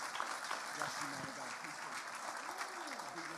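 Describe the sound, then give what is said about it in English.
Applause from a church audience welcoming a guest preacher: a dense, steady wash of clapping that holds at an even level throughout, with voices mixed in. “So would you put your hands together to please welcome Rob Sharp.”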